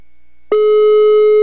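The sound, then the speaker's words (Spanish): Ringback tone on an outgoing telephone call: after half a second of near silence, a loud, steady single electronic tone starts abruptly and holds unbroken to the end, with no voices. “Ahí está timbrando.”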